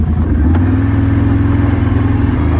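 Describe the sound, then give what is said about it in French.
Quad bike engine running on a ride out to the bison enclosures, a loud, steady low rumble that holds an even pitch throughout. “Allez, on remonte sur le quad et puis on va aller voir les bisons.”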